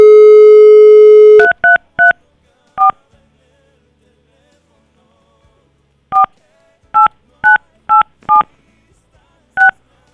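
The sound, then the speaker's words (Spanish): A telephone dial tone holds briefly, then cuts to ten touch-tone dialing beeps, a quick group of four followed after a pause by six more, each short, bright and clear with no talk. “A ver, vamos a colgarle y vamos a volverle a marcar.”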